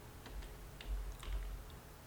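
Faint computer mouse clicks: a few dry, quick ticks spaced unevenly over a quiet, low background hum.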